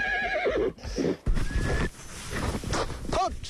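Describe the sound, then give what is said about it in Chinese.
A horse neighs while riders herd sheep toward autumn pasture. A loud, wavering whinny falls in pitch at the start, and a second short neigh comes near the end, with rustling noise in between. “记者和布克一同骑马”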